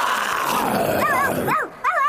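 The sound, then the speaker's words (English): An actor voices a loud, falling growl as the Cowardly Lion in The Wizard of Oz, imitating a lion's roar, followed by several high, yapping dog barks. “If you don't, I'll roar like this.”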